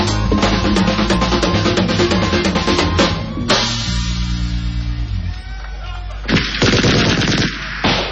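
A gunfire sound effect in a crime-prevention advert: loud bursts of rapid shots erupt over a musical backing, with a pause between two volleys.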